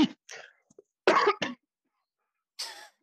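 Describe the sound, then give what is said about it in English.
A man coughing in a few short, harsh bursts separated by brief pauses. One last cough follows after a longer gap, with no talking around it. “He just coughs on every single point that he makes.”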